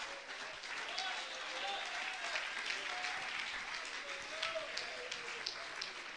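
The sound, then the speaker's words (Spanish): Church audience applauding during a sermon, a steady dense wash of clapping that holds at an even level throughout, with no voices standing out above it. “Dale un aplauso a Cristo y sigo para adelante.”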